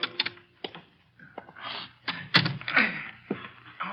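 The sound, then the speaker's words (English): A jammed lock being rattled gives a series of sharp clacks and hollow clunks at irregular intervals, some louder than others, with brief quiet gaps between them and no voices. “Blasted lock is jammed.”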